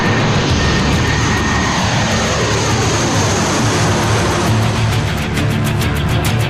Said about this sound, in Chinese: 顶着平衡木雷达的预警机在跑道上呼啸着冲上云霄。